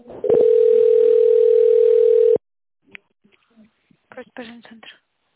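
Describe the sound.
A steady telephone tone sounds as the call is transferred to an operator, holding one even pitch for about two seconds before cutting off abruptly, followed by brief, faint talk.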